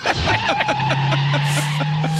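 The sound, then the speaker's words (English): A car drives off with its tires squealing, a loud sustained screech layered over a steady engine drone that continues throughout. “audio of Bucky and his pals driving from Green Bay to Chicago”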